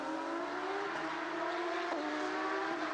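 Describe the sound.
The Jebsen Porsche race car drives down the back straight of the circuit with a sustained, high engine whine. The pitch climbs slightly and evenly as it goes, with no voices over it.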